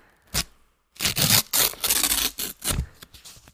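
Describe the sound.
Paper tearing as a very thin page is ripped out of a book: one brief crisp rip, a pause, then a longer uneven ripping made of several dry bursts, fairly soft overall.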